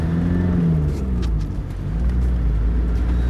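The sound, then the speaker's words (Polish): Steady engine hum of a car driving on, a constant low rumble with a faint whir above it that holds even throughout, with no voices. “I jedziemy dalej.”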